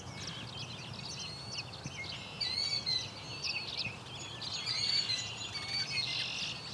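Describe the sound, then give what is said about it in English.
Killdeer calling with shrill, high-pitched cries that recur a few times over a steady low rumbling background, with the calls growing slightly louder toward the end. “this is a very familiar sound. Killdeer like to try to lead you away from where their nest is at.”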